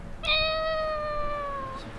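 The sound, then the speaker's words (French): A cat meows once as it passes, one long, high, tonal meow lasting about a second and a half over a steady hiss of background noise. “on a un chat qui vient de passer. Incroyable, on va le suivre.”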